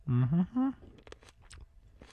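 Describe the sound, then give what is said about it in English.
Chewing a ripe cherry tomato: a few soft, wet crunches and mouth smacks follow a short voiced sound at the start. “I am no tomato judge, but I'm going to taste one here and see if it's sweet.”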